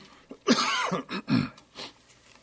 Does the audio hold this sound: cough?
yes